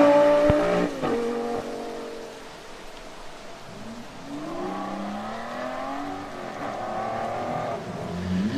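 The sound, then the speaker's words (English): Street traffic with passing cars, a low steady road hum in which engine tones swell and shift as vehicles go by mid-clip, fairly faint and without talk. “Sorry, I'm just watching. There's a lot of traffic here.”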